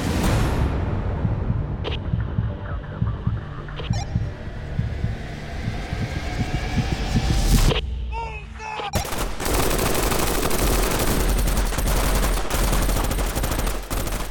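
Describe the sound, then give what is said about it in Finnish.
Assault rifles firing in full-auto bursts and single shots: a dense, loud, continuous crackle of overlapping reports that drops briefly past the middle, then resumes just as thick. “Joka ikinen rynnäkkökivääri alkaa laulamaan tuttua säveltä niin sarja tulella kuin yksittäislaukauksillakin. Sitä paukkeen ja hylsyjen määrää.”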